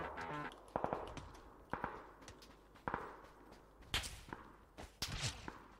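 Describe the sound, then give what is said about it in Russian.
Gunfire in a video game: many sharp, faint cracks scattered in irregular bursts, with some shots closely paired and others spaced apart. “Так, кто-то по мне стреляет.”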